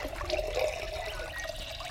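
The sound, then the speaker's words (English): Water pours into a vessel in a steady, splashing, trickling flow that runs evenly for the full two seconds, with no voices. “Here, put the water into a vessel that is sweet and good.”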